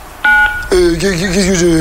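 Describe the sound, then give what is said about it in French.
A single short, steady telephone beep sounds on a recorded phone service line, loud and clean, followed after a brief gap by a voice talking. “Si tu n'es pas majeur, raccroche immédiatement après le bip.”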